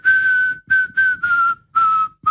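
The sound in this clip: A person whistles a simple melody of the kind used to call to blackbirds: clear, pure notes, a long opening tone followed by shorter ones with a gently falling pitch, the last note cut off.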